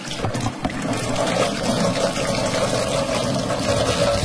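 Hands are washed under running water, a continuous, even rushing and splashing that stays steady and fairly loud throughout, with no talking.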